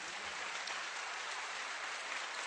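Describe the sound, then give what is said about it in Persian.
An audience claps on request in dense, steady applause that runs evenly from start to finish, fairly faint, with no single claps standing out. “بیا تا دست خالی، بیا تا دست خالی، یک کف مرتب بزن”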